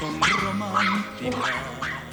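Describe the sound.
Four short, yelping dog barks come at an even pace, each a sharp high burst, with a human voice mixed in.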